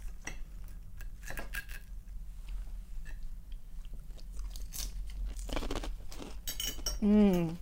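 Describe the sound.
Crunching and chewing as people eat salad with dressing, cheese and pepper, with many crisp bites and light cutlery clinks, then a short voiced sound near the end.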